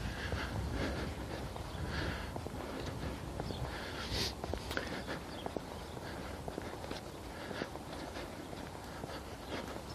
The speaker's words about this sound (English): So yeah, I'm out, I'm walking. I'm not talking very much today. I wonder why. I'll look at this file when I get it back and see these great long gaps where I've just walked along.